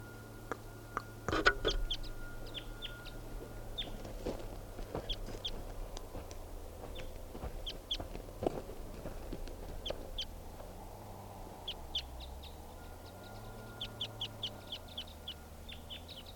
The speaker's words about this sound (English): Very deep voiced wild bird.